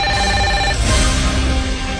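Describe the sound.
Telephone ringing with an incoming call to a phone-in show, a steady electronic ringtone of layered tones that stays loud throughout with no voices.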